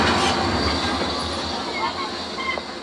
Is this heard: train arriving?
yes

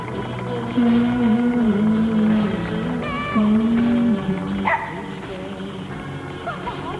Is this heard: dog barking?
yes

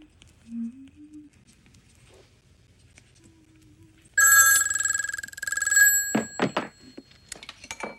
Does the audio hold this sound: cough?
no

